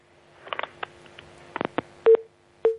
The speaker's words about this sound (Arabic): الاتصال انقطع معلش عشان هو من خارج مصر.